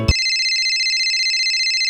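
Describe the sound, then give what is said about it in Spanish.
An electronic phone ringtone signals an incoming call, a bright, steady warbling tone with a fast regular pulse that follows a short burst of noise at the start. “me pongo muy nervioso y claro, llega la primera llamada de Verónica.”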